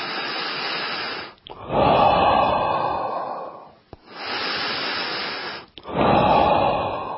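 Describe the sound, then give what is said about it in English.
Forceful breathing through the nose, exhales and inhales alternating in four long, loud, rushing breaths, each separated by a brief pause, with no talking. “if you forcefully exhale, inhale, then”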